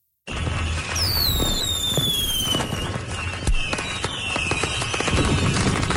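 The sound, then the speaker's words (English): Fireworks burst in the summer sky over Manitoba: loud, dense crackling and popping with whistling shells whose pitch slowly falls, and a heavier boom partway through, carrying on without pause and with no voices. “there is nothing like fireworks in the summer sky here in Manitoba.”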